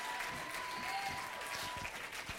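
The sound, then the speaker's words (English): Congregation clapping hands in praise during a church service: a continuous, fairly even patter of many hands with no break over a couple of seconds. “Let's clap our hands to the Lord.”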